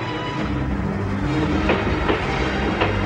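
A train running on rails gives off a steady, loud rumble that fills the whole stretch, with a few faint clacks breaking through the continuous noise.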